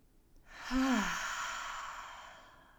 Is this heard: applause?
no